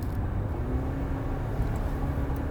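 Steady road and engine rumble from a car being driven while another car drives up close behind, almost hitting its bumper; a continuous, even low drone with no voices.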